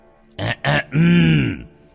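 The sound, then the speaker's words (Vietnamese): A person clears their throat: two short, rough bursts followed by a longer voiced, grunting rasp that tails off. “Tâm Chố nheo mắt, hắng giọng”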